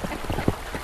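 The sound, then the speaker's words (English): Ducks quack as they bob down a creek in Metro Denver on a snowy winter day: a brief moment with one clear, prominent quack among softer, lower calls. “This is the sound of ducks recorded one snowy winter day. In this case, they're bobbing down a creek in Metro Denver.”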